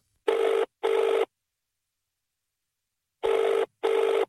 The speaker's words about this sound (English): I tried calling the number he texted from, which was a new number for me, and all I got was this.